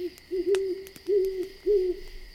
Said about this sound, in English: listened to the chorus of crickets and the hooting of the owls.